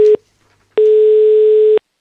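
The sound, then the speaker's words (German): A telephone ringing tone plays while a call is being placed: the tail end of one beep, a short gap, then a steady mid-pitched beep lasting about a second, loud and alone. “Müssen wir gleich mal anrufen beim Simon.”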